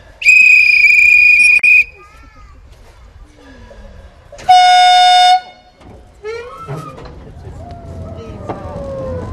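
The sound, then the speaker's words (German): A departing train sounds its whistle: a long, shrill, steady blast ends with a brief extra burst, and a second shorter, lower blast follows a few seconds later. Quieter mechanical rumbling and clatter fill the gaps and continue afterward. “Bitte zusteigen, die Sicherheitsketten schließen und Vorsicht bei der Ausfahrt des Zuges.”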